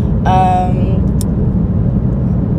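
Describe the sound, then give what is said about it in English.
Steady low engine and road rumble from a car being driven, loud and continuous throughout, with a brief voice breaking in near the start. “I'm driving right now. As you can probably hear, it's no biggie.”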